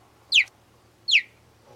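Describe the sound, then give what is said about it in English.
A cheetah gives two short, high chirps, each a quick downward-sweeping squeak, spaced under a second apart against near silence. “That was actually a cheetah. Most people expect these cats to sound more like a lion or a tiger. But actually, the most common sound they make are these cute little chirps.”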